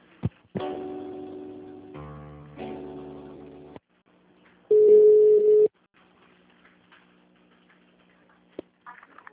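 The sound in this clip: Telephone line tones play while a call to a company's HR department is being transferred: about three seconds of buzzing harmonic tones that change pitch partway through, a short gap, then one loud steady beep lasting about a second and a faint click.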